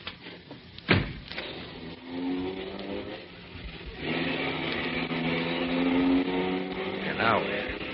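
Car driving off: an early sharp knock, then a motor hum that swells after a few seconds into a steady, droning engine sound that carries on to the end.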